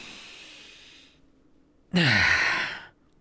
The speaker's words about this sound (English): Look at me. Just like that. Now you take a deep breath.